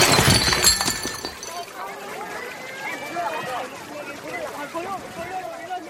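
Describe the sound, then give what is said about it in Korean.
Glass shatters in a sharp, loud crash with bright tinkling fragments in the first second, then the sound drops into a quieter, ongoing mix. “유리 파열음이 퍼지는 순간 정적이 흘렀고 모두 서영을 돌아보았다.”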